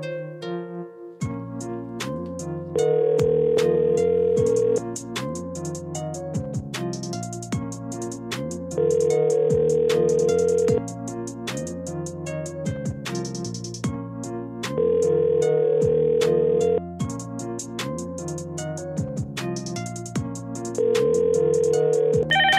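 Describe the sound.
Ringback tone of an outgoing telephone call waiting to be answered, heard as four evenly spaced ring bursts roughly six seconds apart over a steady tonal background.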